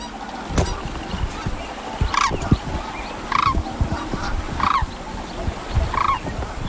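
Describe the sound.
A pair of sandhill cranes calling: four loud, rattling bugled calls repeated at fairly regular intervals over a low background of faint knocks and rustles.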